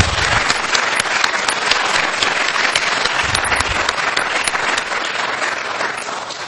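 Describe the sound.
Audience applause after a university talk: dense, even clapping from a large crowd that stays loud for the whole clip and eases slightly at the end.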